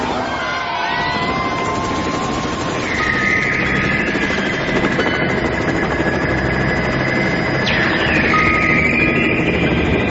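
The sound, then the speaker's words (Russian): A helicopter flies overhead with a loud, continuous rotor and engine drone layered with whining tones, one of which drops sharply in pitch near the end. “доносилось слабое постукивание. Потом вертолет летел дальше.”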